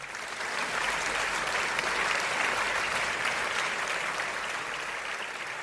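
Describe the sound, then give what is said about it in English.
Audience applause welcomes guests to a show, a steady, dense wash of clapping that holds at an even loudness throughout. “Duval Nation, please rise to your feet and welcome to the show”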